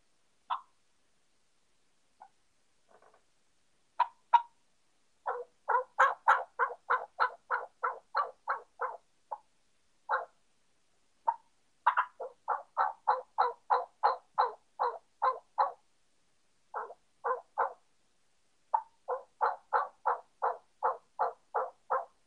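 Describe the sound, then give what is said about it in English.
Young male turkey (jake) yelps made on a turkey call, in quick, evenly spaced runs of many short, honky notes with brief pauses between the runs, loud and clear with no talk. “And Jake's will yelp, unlike gobblers, where gobblers will yelp single yelps in 2-3 slow yelps. A Jake Yelp will do more like this.”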